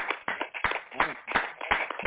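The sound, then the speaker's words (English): An audience claps hands in praise during a worship service, with sharp claps falling in a steady rhythm about every third of a second over a muffled, murmuring background. “Let's give the Most High a hand clap of praise for that.”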